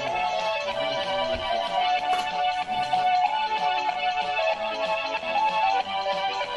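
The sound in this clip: A mobile phone ringtone plays a steady, melodic tune that keeps going for several seconds at moderate loudness.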